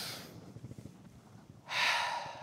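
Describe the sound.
A sharp intake of breath: a sudden, loud, airy hiss swells near the end and holds briefly, after a quiet stretch of faint low murmuring.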